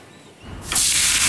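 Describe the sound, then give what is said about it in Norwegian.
A grill sizzles as a burger hits the heat. The hiss starts out quiet, then jumps suddenly to a loud, bright, steady sizzle that holds to the end. “Det er lyden av en grill.”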